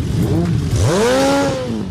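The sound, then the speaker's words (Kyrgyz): Motorcycles rev on the streets of Bishkek on the opening day of the motorcycle season, their engines climbing in pitch over a constant loud, rough rumble. “Жол бою топтолуп көчөнү ээлеген байкерлер, мотоциклдер булар жөн жерине чогулуп турган жок. Анткени бүгүн Кыргызстанда мотосезондун ачылыш күнү.”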